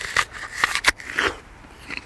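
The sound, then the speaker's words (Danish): Crisp, juicy crunches as teeth bite into a red summer apple: a few sharp, loud snaps in quick succession, followed by softer crunching as the bite is chewed. “Jeg prøver lige at tage en bid af den her,”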